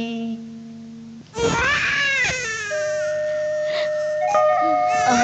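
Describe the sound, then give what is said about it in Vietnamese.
A newborn baby cries in sustained, wavering wails, one after another after a brief quieter opening, loud and harmonic and carrying through to the end. “Ôi, nín đi con.”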